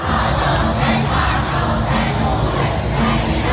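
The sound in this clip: A large crowd roars outside a stadium during a concert, a loud, continuous wash of many voices with no single sound standing out.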